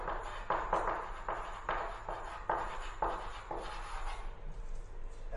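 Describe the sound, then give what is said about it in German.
Handwriting of a short note: faint, scratchy strokes in an irregular series of brief scrapes and taps, with pauses between, fading toward the end. “Ja, also, ich schreibe es jetzt einmal als Erinnerung.”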